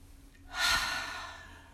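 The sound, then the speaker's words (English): One deep breath taken slowly and deliberately: a soft airy rush that swells quickly, peaks briefly, then tapers off gradually into a long, quiet exhale, heard alone without talk. “We are going to go ahead and take a deep breath.”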